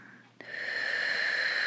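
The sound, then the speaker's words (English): Ocean breath, a slow inhale through the nose with the mouth closed: a short click, then a steady, constricted hiss with a faint whistling tone that holds evenly to the end. “some people call it the ocean breath. I can feel the air kind of hitting the roof of my mouth. My mouth is closed, breathing through my nose.”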